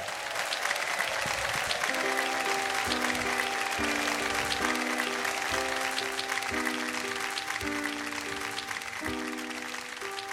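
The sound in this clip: Audience applause welcoming a singer at a live show: steady, dense clapping throughout, with a band playing a repeated melodic figure underneath.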